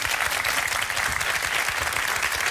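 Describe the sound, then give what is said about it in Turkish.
Studio audience applause at the opening of a Turkish talk show's fourth season: a dense, steady wash of many hands clapping, even in level throughout, with no voices. “İyi yapmış mıyız? Bir alkış alırım.”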